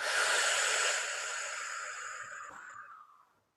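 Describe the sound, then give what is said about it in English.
A deep breath during guided breath work: one long, airy rush of breath that starts loud and gradually fades over about three seconds, with no talking over it. “why don't we all just take a nice deep breath in and out”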